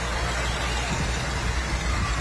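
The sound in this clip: Steady, loud rumble of a diesel Farmall tractor engine moving past in a parade, a continuous low drone without distinct breaks.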